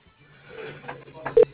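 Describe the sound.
Telephone transfer tones play as a call is passed along, with short electronic beeps and a brief louder tone near the end over a steady low hum on the line.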